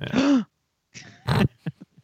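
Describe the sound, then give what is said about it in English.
Snorting and grunting, with a long throaty burst first, then a few shorter bursts and several brief quick snorts, separated by silent gaps. “A lot of snorting.”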